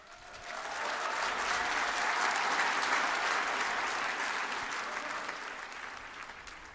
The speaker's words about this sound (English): Why don't you give him a big hand?